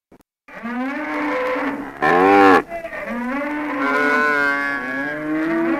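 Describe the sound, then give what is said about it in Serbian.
A herd of cattle mooing, with several long, loud lowing calls that overlap and drift in pitch. A harsher, rougher bellow breaks in partway through. “Evo vašeg stada. Samo dobro ga prebrojte.”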